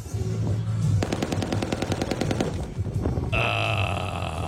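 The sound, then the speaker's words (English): Rapid machine gun fire at Crab Island, a sustained burst of evenly spaced shots in a fast, steady rhythm, loud against continuous background noise. “Machine gun fire. Limited machine gun fire.”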